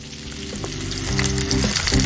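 Tofu skin stir-fried in a wok sizzles loudly as it is tossed with a ladle and soy sauce goes in. The dense crackling frying grows slightly louder toward the end, with no voices.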